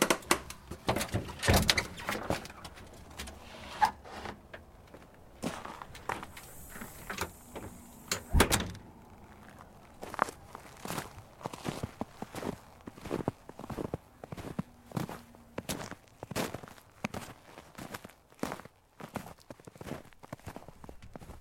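Hiking boots being laced, then footsteps out into snow: many faint, irregular soft clicks and thumps with one louder thud midway, quiet and without talk.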